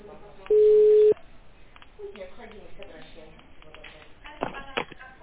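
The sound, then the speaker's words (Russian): A single steady telephone ringback tone sounds while a call to a medical centre is being placed. The mid-pitched beep lasts about half a second and is followed by quiet talking. “Продолжаем дозваниваться до абонента. Ожидайте ответа.”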